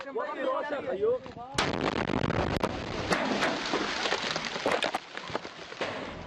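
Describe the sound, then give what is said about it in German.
An artillery shell explodes on impact in a combat zone where fighters are wounded: after a second of muffled voices comes a sudden sharp blast, then many loud cracks and bangs of gunfire in an irregular run to the end. “Dann schlägt eine Granate ein.”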